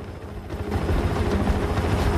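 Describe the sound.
Helicopter engine and rotor noise during a foot chase through a derelict building at night: a dense, continuous, broad roar with heavy low rumble that holds steady for the whole clip, with no talk.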